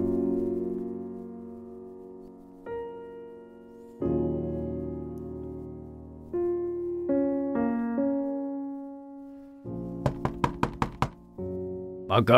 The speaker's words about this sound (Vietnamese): Mới sáng sớm đã có tiếng ai gọi ôm sầm từ ngoài cổng, cộng thêm tiếng đập cửa đinh tai.